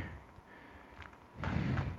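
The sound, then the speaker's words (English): A plastic bag being pulled open, a faint rustle followed by a louder, crackling burst of crinkling over the last half second. “Get this bag open. Open sesame.”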